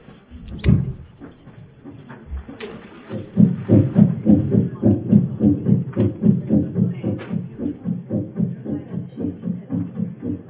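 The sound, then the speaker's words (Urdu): A heartbeat throbs as many low, muffled pulses in a steady, quick rhythm. It starts faint and uneven, then continues evenly and more strongly to the end. “دل کی دھڑکن ہے, اس کو محسوس کریے گا.”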